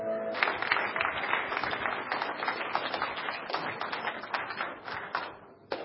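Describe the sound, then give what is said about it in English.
A church audience applauds, a dense, loud stream of clapping that runs steadily through the whole stretch and briefly thins near the end. “Give the Lord a hand. Hallelujah.”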